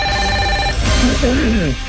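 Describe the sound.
A telephone rings with an incoming call, a loud steady electronic ring tone lasting under a second. It breaks off as a voice starts talking over continuous background noise.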